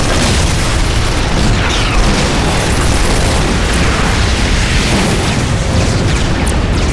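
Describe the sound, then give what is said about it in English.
Weapons fire and explosions from a huge warship's hundreds of weapon stations during a battle between ships: a dense, continuous roar of booms and bursts that stays loud from start to finish without a break. “It opened up with all its hundreds of weapon stations.”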